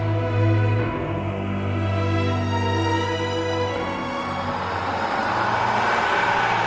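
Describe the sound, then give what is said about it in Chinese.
Many race cars speed along in a motor race, a steady droning engine roar with strong low hum that turns rougher and noisier toward the end. “前面出现了好多车，怎么办呢？司机先生只想追回车票，他继续往前冲。”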